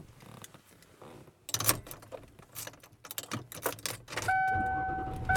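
Keys jangle and objects clatter inside a car being driven around, in irregular bursts, until a louder, steady engine rumble takes over near the end with a thin whine running through it.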